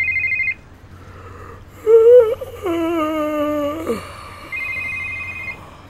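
Telephone ringing as a steady, high electronic tone, sounding briefly at the start and again near the end, with a louder, wavering warbling sound between the two rings.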